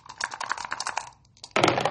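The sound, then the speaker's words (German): A single die rattles inside a dice cup: rapid, light clattering clicks, a brief near-silent pause, then a louder and denser burst of rattling. “Dazu benötige ich einen Würfel und einen Würfelbecher.”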